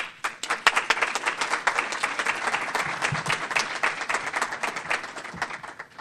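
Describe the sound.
Audience applause greets a speaker: brisk, dense clapping from a modest crowd, with individual claps standing out. It stays fairly even for several seconds and thins slightly near the end.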